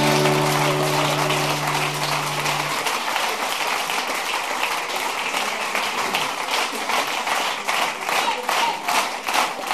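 Concert audience applauding after a song: a held musical chord fades out in the first seconds as dense clapping takes over, steady and loud, with claps becoming more distinct and rhythmic toward the end.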